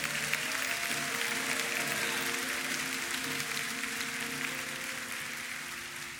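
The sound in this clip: A Westover church audience applauds to welcome a guest pastor. The clapping is sustained and dense with faint tonal notes early on, and it gradually tapers off in volume.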